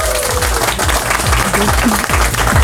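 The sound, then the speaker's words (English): An audience in Amsterdam cheers and applauds a guest introduced in a studio, with dense, steady clapping and a voice carrying over the crowd. “And Amsterdam, please make some noise for Dina Radonic from Croatia.”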